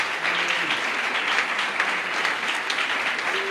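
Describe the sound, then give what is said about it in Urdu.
Loud applause from a church audience during a worship and prayer gathering, a dense, steady clapping that holds evenly for the whole few seconds. “ہم یسوع کے لیے زوردار تالیاں بجائیں”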